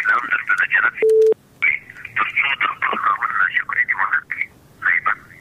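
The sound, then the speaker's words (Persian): A telephone line drops on a radio call-in, leaving one short, loud, steady beep that cuts through ongoing talk. “خب فکر کنم تماسشان قطع شده”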